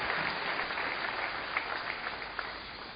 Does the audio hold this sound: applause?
yes